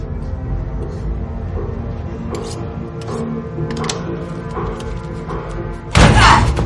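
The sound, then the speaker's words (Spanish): A folding chair strikes a person in one sudden, loud crashing hit near the end, after a long stretch of steady low background rumble with a few faint knocks. “Le golpea con la silla y sale corriendo.”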